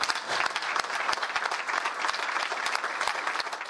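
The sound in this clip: Sustained audience applause as everyone stands to honour those who fought at the war front; dense, steady clapping holds at an even level for the whole stretch, with no voices.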